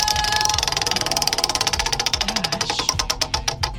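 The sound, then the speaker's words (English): Prize wheel spun during a call-in trivia game, its ratchet producing a fast run of sharp ticks that gradually spread out and slow toward the end as the wheel winds down. “You want to give that wheel a spin? Here we go.”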